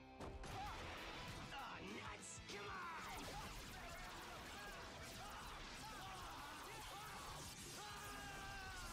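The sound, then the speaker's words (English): Sword slicing attacks land in a video game as a rapid flurry of sharp slashes and crashing hits, mixed with shouted, yelling voices throughout. “Jeez, that's a lot of slicing.”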